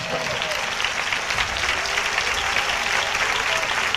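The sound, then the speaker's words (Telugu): A church audience claps to honor God, producing dense, continuous applause at a steady level for the full four seconds. “ఆ దేవుని మనం ఘనపరుస్తూ చప్పట్లతో ఘనపరుస్తాం”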